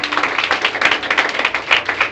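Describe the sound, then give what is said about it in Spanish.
A short burst of loud hand clapping from a church audience, with rapid, crowded claps over about two seconds. “Si quiere darle un aplauso al Señor, está bien, no está mal.”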